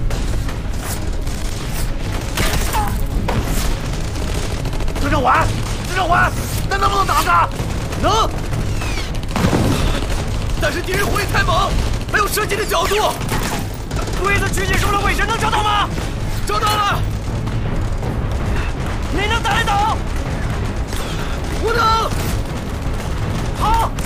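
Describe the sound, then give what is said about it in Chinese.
Gunfire in a wartime battle scene, with dense volleys of shots and heavy booms running throughout and people shouting over the continuous firing. “你不是枪打得准吗？开枪啊！”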